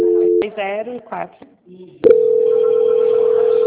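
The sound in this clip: A telephone line tone sounds as a call is transferred to a quality-control department. A brief voice comes first, then a short pause, then a steady single-pitch tone that starts sharply and holds unchanged to the end.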